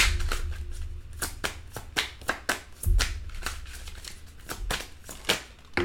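Tarot cards are shuffled and drawn during a reading, with many quiet, sharp riffling snaps and soft slaps of cards at an uneven rhythm.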